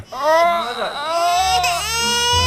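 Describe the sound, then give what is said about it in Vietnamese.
Ugly crying from a person: a loud, exaggerated wailing sob with a strained, tonal voice that holds and wavers for a couple of seconds without pause. “Cái gì vậy? Chưa thấy ai khóc xấu vậy.”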